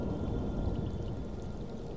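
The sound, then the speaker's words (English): Rain falling in a steady, dense patter that holds at an even loudness throughout, with no voices. “Just feel this beautiful, graceful rain as it coats every part of your body.”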